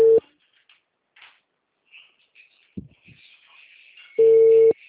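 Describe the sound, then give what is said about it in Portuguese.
An unanswered telephone call rings through the earpiece as a steady mid-pitched ringback tone. One tone is cut off at the start, a long quiet gap holds faint scattered noises, and a second clear tone sounds near the end. “Não atende, Bruna. Ele não atende.”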